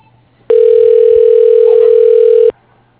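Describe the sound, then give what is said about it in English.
A telephone tone heard before a call reaches voicemail: one loud, steady, unwavering beep lasting about two seconds, heard alone. “I'm just going to leave this voicemail on the number of yours.”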